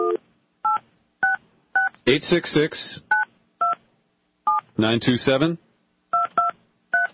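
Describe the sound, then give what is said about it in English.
Touch-tone keypad beeps as a toll-free number is dialed on a telephone: about ten short, steady dual-pitched tones in an uneven rhythm, with two bursts of a voice talking in between. “I want you to listen as I dial in to see how sophisticated this is.”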